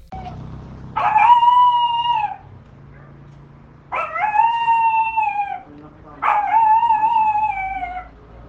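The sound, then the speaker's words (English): A small dog gives three drawn-out, high yelping howls, each lasting a little over a second with a bright, wavering pitch. Short quiet pauses separate the howls. “like a tiny a chihuahua or something. That's a dog.”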